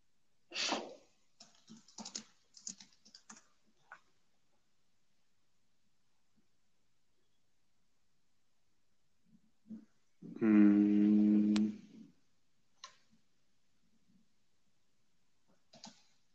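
Computer keyboard typing while someone looks up an event online: a few quiet, scattered key clicks early on, followed by a long silence and a brief humming tone.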